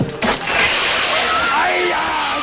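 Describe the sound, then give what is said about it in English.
Fire sprinklers spraying water all over a restaurant, a loud, dense rushing hiss that starts suddenly and holds steady, with voices faintly audible through it. “Water shoots all over the restaurant.”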